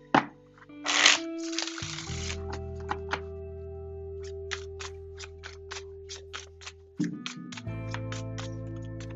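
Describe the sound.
Tarot cards are shuffled, first with a brief dense riffling burst, then many crisp taps and snaps of cards, over sustained background tones that shift in pitch.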